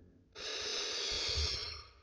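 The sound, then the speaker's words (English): A single long, deep breath taken during a guided relaxation and trance induction: one continuous, steady, airy rush of breath lasting well over a second, then fading, with no talking. “To begin, I'd like you to take a deep breath in”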